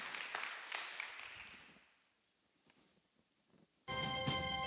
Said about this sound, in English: Hey, can we just bless those men who laid down their life for the gospel? Put your hands together.